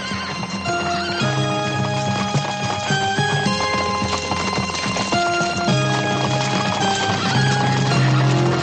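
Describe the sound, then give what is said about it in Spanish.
Horses clip-clop and whinny as riders leave on horseback in a 1983 adventure drama film. The hoofbeats and neighs are continuous and loud throughout. “Luis, Pedro y otros ocho caballistas se marchan a caballo”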